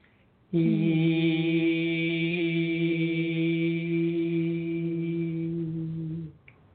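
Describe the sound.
A single voice sustains the vowel E as one steady, resonant tone, intoned as a ritual call to the element of air. The note holds evenly at a constant pitch for about six seconds before stopping.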